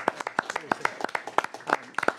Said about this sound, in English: I think we need to give him a round of applause, please.